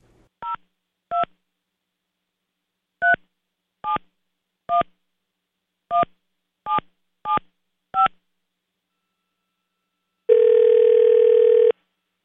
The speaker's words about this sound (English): Here, just hear how it will sound. Okay, ready? I'm dialing.